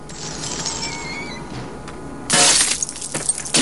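Glass shattering as gunfire breaks the letters of a neon sign: a sudden loud crash and burst of tinkling fragments arrive after a quieter stretch of low hum and faint high whines.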